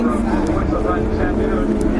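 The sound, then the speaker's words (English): Steady, loud engine drone from Porsche GT race cars in a single-make class race on a racetrack, holding continuously without breaks. “These are all the same style of car. I mean, they're all the Porsche GTs. It's one class of race just for them.”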